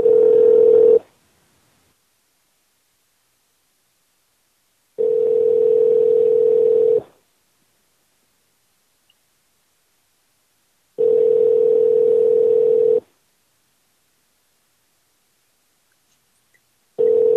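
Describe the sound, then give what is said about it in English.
Telephone line tone on an outgoing prank call sounds in steady, repeating buzzy mid-pitched bursts of about two seconds, separated by long silent gaps, with no voices. “Pran Funkles Live presents a prank phone call”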